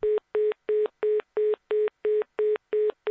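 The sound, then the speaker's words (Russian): Rapid telephone busy signal after a call ends: ten short, identical mid-pitched beeps in a quick, steady on-off rhythm, heard alone. “Частые гудки оповестили, что разговор окончен.”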